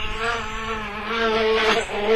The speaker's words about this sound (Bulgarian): Но, какво ли може да бръмчи? То било майски бръмба.